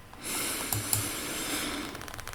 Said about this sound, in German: Und jetzt nimmst du nochmal einen tiefen Atemzug durch die Nase.